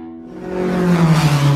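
A car accelerating at speed, its engine tone swelling steadily louder and slightly rising over the short clip, heard alone without voices.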